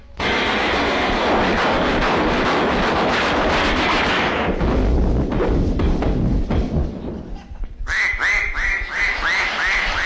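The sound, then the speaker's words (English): A loud, dense barrage of gunshots and explosions as hunters fire everything at one duck in a comic swamp hunt. Bangs overlap continuously, and a few duck quacks break through near the end. “He's shooting all the other hunters. They got a full-scale war over that one miserable duck. They're throwing everything at him.”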